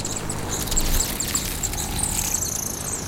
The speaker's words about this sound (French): Oh, un colibri femelle.